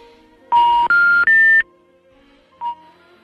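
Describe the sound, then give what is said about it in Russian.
Telephone line beeps: three loud, clean tones in quick succession, each higher in pitch than the last, then a pause and one short, fainter beep. “Тут такие гудки раздались, что я подумал, что пропала связь.”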